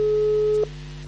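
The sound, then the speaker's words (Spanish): An electronic calling tone sounds while a video call is placed to Barcelona. A single steady tone holds for about half a second and then cuts off, leaving a faint low hum. “Videollamada. Ahí está. Llamando a Barcelona.”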